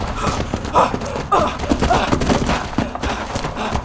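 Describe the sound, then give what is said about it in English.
Heavy gunfire erupts in many rapid, overlapping bursts and thuds at a loud level, forming a dense, chaotic barrage. “We're under heavy fire.”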